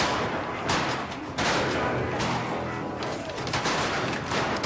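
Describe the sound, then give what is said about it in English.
Gunshots during a buffalo hunt: several sharp, loud cracks burst out at irregular intervals over a dense, continuous rush of noise. “Look, we're shooting buffalo.”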